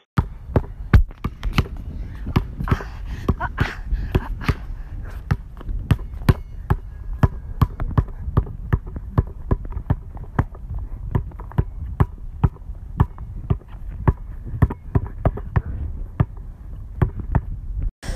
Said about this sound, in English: So we just finished our workout, and basically we worked on fundamentals like dribbling, as you heard.